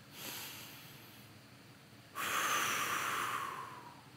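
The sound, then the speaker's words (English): A deep breath: a faint short exhale early on, then a longer, airy inhale that swells suddenly and fades out slowly. The whole clip is quiet and has no talking. “Everybody, right where you're at, I want you to take a deep breath.”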